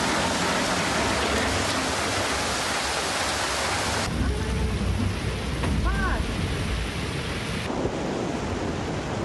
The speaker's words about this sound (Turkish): Başkente öğle saatlerinden sonra başlayan sağanak yağmur etkili oldu.